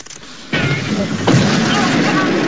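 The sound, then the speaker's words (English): An explosion: a sudden loud blast, then a second burst about a second later, both trailing into a sustained roaring rumble. “A moment later, and he explodes again.”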